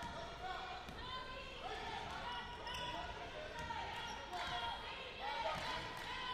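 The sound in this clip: Basketball dribbled on the court during a women's game between the Lady Bison and the Lady Patriots, with many repeated bounces under a commentator's voice and crowd noise.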